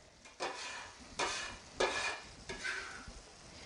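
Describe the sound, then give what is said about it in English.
Onions scraped with a metal bench scraper into browned ground meat sizzling in a pan for sloppy joes: a few faint scraping, stirring bursts over a soft, steady sizzle, without talk. “if I can find my bench scraper, there we go. I'm going to scoop up the onions and add them to the meat.”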